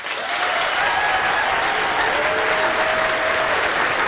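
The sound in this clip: Audience applause welcoming a performer onstage: a dense, steady wash of clapping from a large crowd, loud and even throughout.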